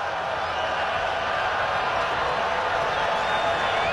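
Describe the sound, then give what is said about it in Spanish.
A baseball stadium crowd cheers during a Tampa Bay Rays game, a dense, continuous roar of many voices that holds steady and loud for the whole stretch without clear peaks or breaks. “El público que se anima.”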